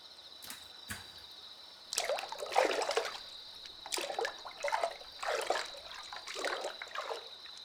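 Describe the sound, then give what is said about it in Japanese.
Hot bath water sloshes and trickles as someone slowly lowers into the tub, with several soft, gentle splashing surges that stay faint throughout. “私の手をゆっくり離して、お湯にお浸かりください。”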